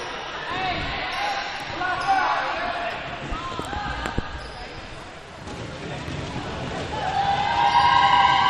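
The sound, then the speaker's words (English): A player dribbles a basketball at the free throw line during a game, giving a few dull bounces. A commentator talks steadily over them, with crowd noise in the background. “deliberate dribble at the free throw line.”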